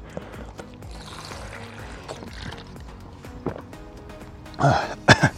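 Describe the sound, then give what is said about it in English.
Coughing after choking on a drink during a rowing workout. Quieter liquid and gulping sounds come first, then a couple of sharp, loud cough bursts near the end. “Try not to choke on your drink. Oh, excuse me. That was a lung rattler.”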